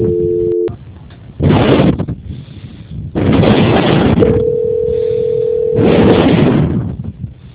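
Telephone line tones during a call transfer: a short two-pitch tone at the start, then a long steady mid-pitched tone, separated by loud broad bursts of noise. No voices are heard.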